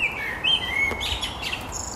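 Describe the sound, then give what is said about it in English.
Blackbird singing from a chimney cap: a few thin, high whistled chirps and song notes, moderately faint, over a steady low background rumble. “There it is, the blackbird singing. Yep, right on top of the chimney cap. It's a blackbird.”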